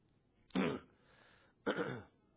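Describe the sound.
Throat clearing from a preacher during a Spanish-language sermon, after something got caught in his throat: two harsh, rasping bursts about a second apart, loud against near silence.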